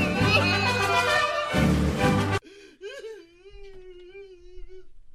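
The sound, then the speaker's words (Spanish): An exaggerated wailing cry: a loud, dense burst gives way to a long, wavering moan that holds a steady pitch before fading out. “¿Por qué llora? ¿Por llora así como si fuera de, de, México? Llora como si fuera de México.”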